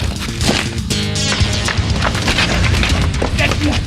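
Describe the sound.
Gunshots in an audio drama scene: a few heavy, booming shots crack out amid hectic, loud action, with raised voices mixed in.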